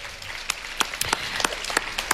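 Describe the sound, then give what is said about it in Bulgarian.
Applause at a music awards ceremony: a steady wash of clapping with a few sharper, distinct claps standing out at irregular moments throughout. “Аплодисменти!”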